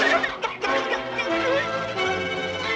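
A cartoon hen clucks in quick, agitated bursts, loud and continuous over a dense, busy background for under three seconds.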